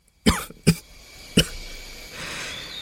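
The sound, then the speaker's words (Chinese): A man with a hoarse voice coughs three times in sharp, rough bursts. The first two come close together and the third follows after a short pause, with a faint hiss lingering afterward. “当下，唐范咳嗽了好几声，也没空跟他辩驳， 嘶哑着声音问。”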